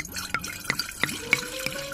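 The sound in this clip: Liquid glugs and splashes as a drink is poured from a large plastic bottle for a memorial toast, in several irregular bursts of gurgling, with no talk over it.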